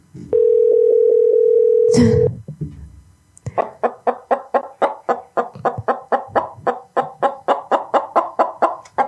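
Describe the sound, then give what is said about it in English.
Telephone tones while a call is being placed: a steady dial tone for about two seconds, a dull thump, then many rapid, evenly spaced pulses that repeat in a steady rhythm. “I'm trying to call your person right now.”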